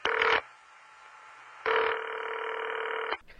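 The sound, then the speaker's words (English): A telephone number being dialed on a phone line: a short steady tone burst, a pause, then a longer sustained electronic tone, clear and moderately loud. “I think I'll call her and see what's going on.”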